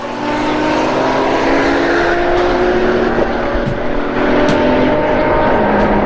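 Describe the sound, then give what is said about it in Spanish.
A Ferrari sports car engine roars steadily and loudly for the whole stretch, its tonal harmonic whine holding firm with only slight shifts in pitch. “Ya se fue el Tuca en su Ferrari”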